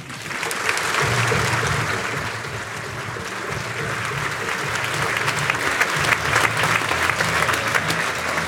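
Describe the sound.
An audience claps to welcome a comedian onto the stage at a stand-up show, producing dense, loud, sustained applause that carries on without a break.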